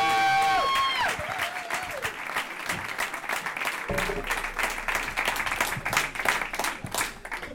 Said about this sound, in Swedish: Okej, då vill jag att ni håller i applåden, för här har vi honom.